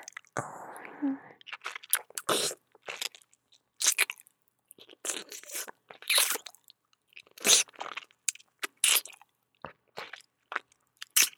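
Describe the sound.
Eating with sucking on food: a soft, noisy burst, then many short, crisp crunching chews and bites in an irregular rhythm, fairly faint and with no talk.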